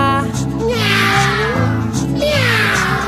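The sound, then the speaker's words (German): Two drawn-out cat meows, each with a wavering, sliding pitch, sound over a steady rhythmic musical backing in a children's song about a train carrying animals. “Im dritten Waggon, das sei Katze.”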